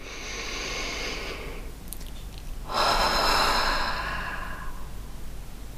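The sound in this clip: A deep, deliberate breath taken during a guided body-awareness exercise: a long airy inhale, a short pause, then a louder, fuller exhale that slowly fades. No one speaks.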